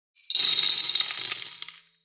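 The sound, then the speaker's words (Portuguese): Sixty coffee beans poured out together make a dense stream of small hard clicks and rattles that lasts under two seconds and plays alone. “Então, para entender esse tamanho, eu vou derramar exatamente 60 grãos de café.”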